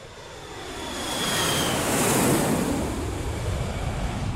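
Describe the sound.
Airplane engine roar aboard a plane, a dense, steady rushing drone that swells slightly partway through and then holds level, with no voices.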